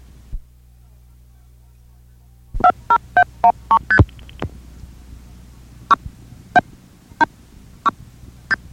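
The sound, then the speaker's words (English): Telephone multi-frequency dialing pulses: many short two-tone beeps, first in a quick run of about a dozen, then more widely spaced, each clear and loud over a faint low hum. “The following sounds are those of multi-frequency pulses.”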